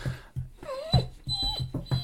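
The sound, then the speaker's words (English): A dog shaking itself off makes a rapid run of soft flapping thuds with light metallic jingling, plus brief high whine-like tones. “that's my dog shaking”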